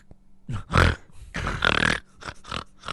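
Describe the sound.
A human voice imitates a pug's snorting breath: several rough, wheezy snorts, two of them long and strained, with short puffs of breath between.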